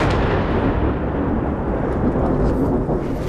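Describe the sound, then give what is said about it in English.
An Israeli airstrike explosion in Nabatieh, Lebanon, heard as a loud, deep, sustained rumbling roar that fills the whole span without any clear single crack. “We've been here for about 10 minutes and there's been a wave of very intense Israeli airstrikes. We've just heard another one.”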